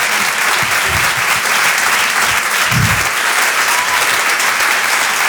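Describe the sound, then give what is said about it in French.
Audience applause at a comedy stand-up performance: dense, steady clapping fills the whole stretch at a loud, even level, with a few faint low vocal bursts from the crowd mixed into the wash. “pouvez l'applaudir très très fort, Flora Amara sur Rire et Chanson”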